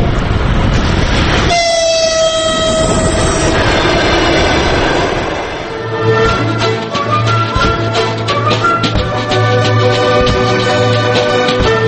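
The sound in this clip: A train passes on the railway near a village in Maimak. Loud horn blasts come first, then a steady rolling rumble and clatter of wagons with a droning tone underneath, continuous and alone.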